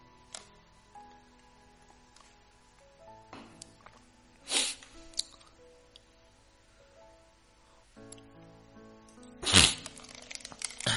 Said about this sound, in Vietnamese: cho mình thở một chút, cho mình uống miếng nước nha.